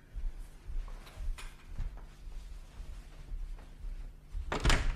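A hotel room door is opened late at night: faint scattered clicks and bumps from the latch and handle, ending in one louder clunk near the close.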